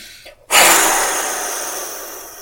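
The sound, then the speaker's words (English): A single forceful exhale through the mouth, used to release stress, starts as a sudden loud breathy rush. It fades gradually over about two seconds. “when I'm feeling stressed, I prefer a more forceful exhale to release my emotional energy. So it'd be like,”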